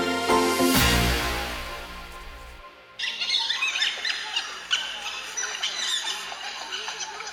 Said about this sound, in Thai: เสียงที่ได้ยินเมื่อกี้นี้เป็นเสียงร้องของหมาในนะคะซึ่งเป็นนักล่าในป่าที่มีชื่อเสียงว่าดุร้าย